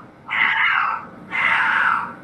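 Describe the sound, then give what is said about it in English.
Cats yowling at night while in heat: two long, drawn-out wailing cries, the second beginning shortly after the first fades, loud and with no voices. “and with cats yowling in the night. In heat.”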